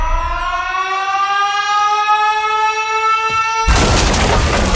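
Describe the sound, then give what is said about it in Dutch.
A siren effect for a bomb going off wails upward in pitch and then holds steady for about three and a half seconds, until a loud, noisy boom bursts in and fills the rest. “De caloriebom gaat af.”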